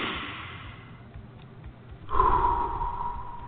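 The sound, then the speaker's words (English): Deep breathing in through the nose and out through the mouth: a soft airy breath, then a louder, longer rush of breath starting midway that slowly fades. “Close your eyes and take a couple of deep breaths. In through the nose. Out through the mouth,”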